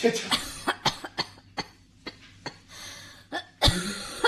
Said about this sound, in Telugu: ఏంటి దగ్గుతున్నావు